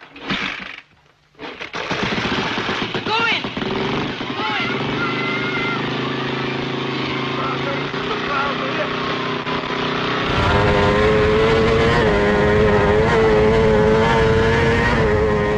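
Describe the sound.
A TT racing motorcycle engine runs with a rough, sustained roar that stutters briefly at the start, then holds steady and grows louder and fuller for the last few seconds.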